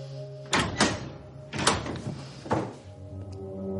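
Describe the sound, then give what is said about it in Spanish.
A prison cell door being opened, heard as a few solid thunks and clunks spaced over several seconds with quieter gaps between them. “El taxista abre la puerta.”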